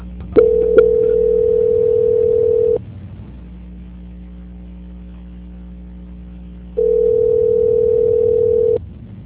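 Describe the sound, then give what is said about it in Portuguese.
Telephone tones play while a bank call is transferred to quality control: two long, steady, low-pitched tones separated by a few seconds of faint hum on the line. “Eu estarei transferindo a sua ligação para o controle de qualidade do Banco Santander, aonde dará continuidade à sua contratação, tá bom?”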